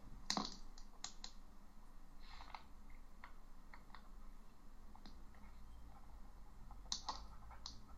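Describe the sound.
Faint typing on a computer keyboard: a few scattered key clicks at an uneven pace, quiet over a low steady hiss, with no talking.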